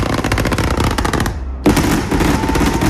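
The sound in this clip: Fireworks display fired line by line from an electronic firing console: dense, loud volleys of rapid cracks and bangs run almost continuously, break off in a short lull near the middle, then burst back in at full force.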